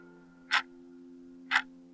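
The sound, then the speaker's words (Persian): Clock ticking within a rap song: two sharp ticks about one second apart, crisp above a steady low drone. “چه رو مخ شده صدا این تیک تیک ساعت”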